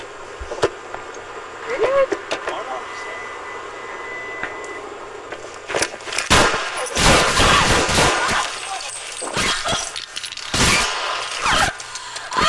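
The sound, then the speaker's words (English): Gunshots fired during a police traffic stop, in which an officer is hit in the left leg: a rapid series of loud, sharp bangs bursts out after a quieter opening stretch and continues irregularly to the end. “Officer D's help, shots fired.”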